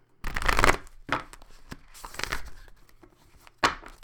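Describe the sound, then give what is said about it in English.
Cards are shuffled and drawn from a Spellcasting Oracle Cards deck, with a few papery bursts of riffling and rustling separated by brief pauses. The loudest burst comes first and a sharp flick follows at the end. “let's go ahead and get a card out. Again, this is from the Spellcasting Oracle Cards.”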